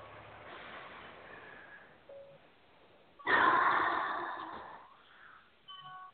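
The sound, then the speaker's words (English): A deep breath taken during a guided release exercise, heard as a long airy rush that swells suddenly and fades over about a second and a half above faint background noise. “A nice deep breath.”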